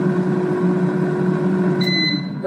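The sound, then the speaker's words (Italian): A Proscenic air fryer runs while cooking, giving a steady electrical hum with faint tonal whine, and a high beep comes in near the end. “chiedi a friggitrice Proscenic di cucinare bacchetta. La friggitrice ad aria sta cucinando bacchetta.”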